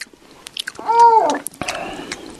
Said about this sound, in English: And it's not even if your mouth's open. It's just the chewing sound. Yes. I can't take the noise.